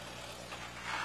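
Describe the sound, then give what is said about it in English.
A McCormick Farmall H tractor with a wide front end runs with a steady, faint, low engine hum. It grows slightly louder toward the end. “Yes, they do. It's a Farmall as well, I believe. Yep, it is a Farmall, but I can't see the numbers and it's not registered.”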